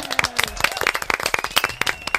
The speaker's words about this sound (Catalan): Ja està, aplaudiments.